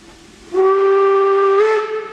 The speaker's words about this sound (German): Mit Pauken und Trompeten und viel heißer Luft zum Antrieb verschiedener Kleinbahnen.